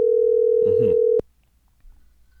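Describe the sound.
A telephone call tone sounds while phoning someone: a steady single-pitch tone holds for just over a second, then cuts off abruptly into near silence.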